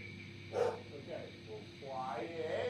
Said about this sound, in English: That's gonna be a freaking huge dog.